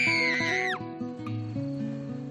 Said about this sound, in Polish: nagle krzyk rozdziera całą okolicę.